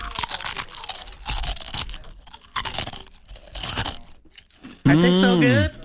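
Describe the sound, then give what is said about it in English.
Someone bites into Sterzing's potato chips from Burlington, Iowa, making several loud, crisp crunches with short pauses between them. A brief hummed vocal sound follows at the end. “I'm going to eat some new chips. Hold on, folks.”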